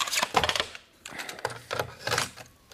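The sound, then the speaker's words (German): Sharp plastic clicks and clacks as a cassette is handled and pushed into a tape recorder on a desk. The mechanical rattles come in several short bursts with brief pauses between them, and no one speaks. “Probier mal aus, ob sie in den Rekorder auf dem Schreibtisch passt.”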